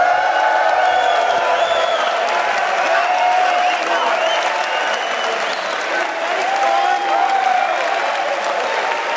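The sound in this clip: A live studio audience at a university campus in South Carolina applauds loudly and steadily, with scattered cheers and whoops mixed into the sustained clapping for about nine seconds.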